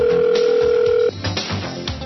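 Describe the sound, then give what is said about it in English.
Telephone ringback tone as a line dials a caller back after a phone system fault: one steady mid-pitched tone holds for about a second, then cuts off into faint, scattered noise. “We just dialed you back on the air because we've had a little bit of a telephone system problem today.”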